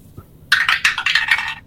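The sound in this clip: A twenty-sided die is rolled across a table during a tabletop role-playing game, giving a quick, bright clatter of hard taps and rattles that lasts about a second.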